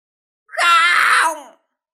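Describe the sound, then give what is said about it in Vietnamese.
An old woman cries out loudly in a single strained, drawn-out wail that lasts about a second and is rich in harmonics, with silence before and after. “Bà lão kêu to”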